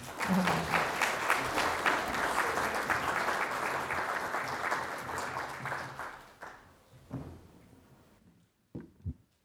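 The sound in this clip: An audience applauds to welcome speakers at a lunchtime talk at the Australian Museum, a dense, sustained clapping that fades after about six seconds and leaves a few scattered claps.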